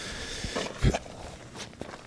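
Footsteps of people walking outdoors toward a stadium, heard as a few soft, irregular thuds, faint and spaced unevenly.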